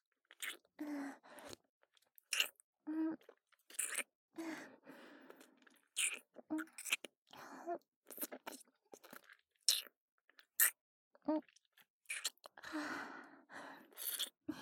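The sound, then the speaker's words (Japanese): Crisp crunching bites and chewing sound close up, many irregular bursts of crunchy mastication broken by short silences, with soft sighs and breaths between them. “ずっとずっとこうやって食べてたいの。”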